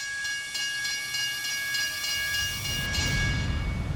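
A train at a railway station, with steady steam hissing and thin, sustained high tones above it, and a low rumble swelling in the final second, no voices.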